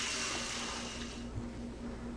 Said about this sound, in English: I've got nice hot water coming out of the tap.